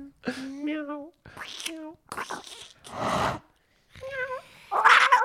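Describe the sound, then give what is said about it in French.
Several meows from a cat come in short, separate bursts with brief pauses between them. Some are clear, tonal cries and others are breathier, rougher calls. “Attends, c'est un vrai chat, ça.”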